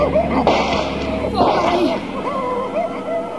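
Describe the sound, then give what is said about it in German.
Two sharp gunshots crack out in a German-language radio drama, the first near half a second and the second about a second later, with voices around them. “Jetzt! Schießen Sie, Doktor! Schießen Sie doch!”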